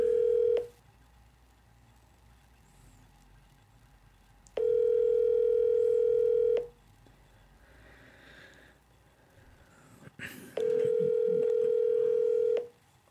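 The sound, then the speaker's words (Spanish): Dial tone after a phone call drops: three long, steady mid-pitched tones separated by gaps of faint line noise, with a brief rustle before the last tone. “Parece que el Chuy se nos, se nos cayó de aquí de la llamada.”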